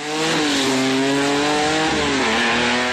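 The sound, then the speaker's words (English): Loud, continuous engine roar of a drag racing car on a drag strip during a street-legal drag racing night, a heavy droning tone that wavers slightly in pitch without a break. “every drag strip has its roar.”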